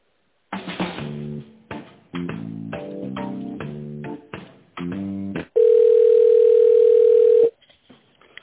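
Telephone tones while placing a call: several short, choppy tonal bursts, then a steady, loud, pure dial tone held for about two seconds before cutting off.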